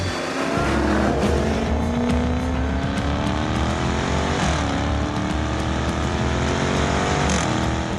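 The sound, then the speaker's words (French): A V8-powered XE sports sedan driven hard on a race circuit: a loud, continuous engine roar whose revs climb steadily, dip sharply for a moment, then build again. “Bon allez, c'est parti pour l'essai de cette XE sur le circuit de la Ferté-Gaucher.”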